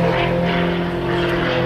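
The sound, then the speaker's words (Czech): A propeller sport airplane flying aerobatics over a Prague airfield, its engine giving a loud, steady droning hum with no clear change in pitch. “Jak odpoledne na letišti v Letňanech začalo, tak také skončilo akrobatickými kousky Martina Šonky v jeho sportovním letadle.”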